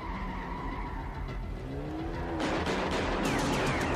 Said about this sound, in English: They're just shooting at him.